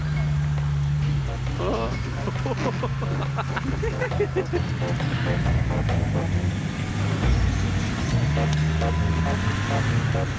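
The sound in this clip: A vehicle engine accelerating up a hill as it turns right, a steady low drone heard throughout beneath people talking.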